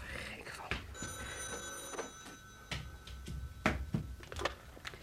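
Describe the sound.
A telephone bell rings for about two seconds in a steady, faint electronic tone while someone talks with nervous exclamations over it.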